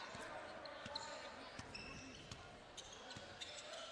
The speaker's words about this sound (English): Wagner bringing it up with a right-hand dribble, guarded by Pepin.